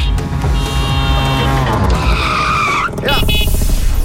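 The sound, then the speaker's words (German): A tuk-tuk driving past as a radio sound effect: a loud revving engine with tire squeal and shifting pitch. It breaks off briefly near the end, then picks up again. “Da ist auch gerade eben das Tuk-Tuk durch Deutschlands Biggest Beats gefahren.”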